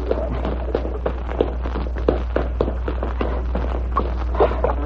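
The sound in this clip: Footsteps of people running across a ship's deck, many quick, light impacts in a hurried, uneven patter over a steady low hum.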